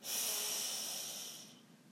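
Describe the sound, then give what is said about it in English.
A single big, deep breath drawn in during a relaxation exercise: a quiet, airy hiss held steadily for about one and a half seconds, then tapering off. “And taking a big deep breath in”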